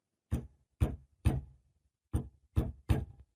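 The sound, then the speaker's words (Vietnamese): Someone pounding from inside on a nailed-down wooden coffin lid: six heavy, hollow knocks in two groups of three, fairly faint and heard alone against silence. “Tiếng người đập vào nắp quan tài đòi chui ra, cảm tưởng như mấy cái đinh đóng cũng đang sắp bung ra vậy.”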